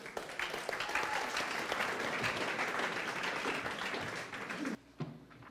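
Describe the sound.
Applause rises from the audience at a group meeting as the secretary is welcomed up to give her report. Steady, full clapping lasts several seconds, then cuts off abruptly near the end.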